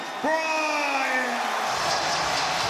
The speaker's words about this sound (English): How about a big round of applause for, right now on the floor, number 24, the Black Mamba, Kobe